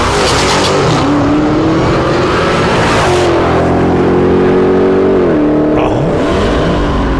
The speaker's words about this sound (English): Here's the sound of a Dodge Demon driving by.